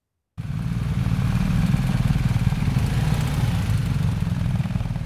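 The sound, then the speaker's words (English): A motorcycle engine from a group of adventure motorcyclists touring Albania runs in a steady, loud, low rumble. It starts abruptly after a short silence and continues without a break, with no voices. “Ross caught up with another group of adventurous cyclists, specifically motorcyclists”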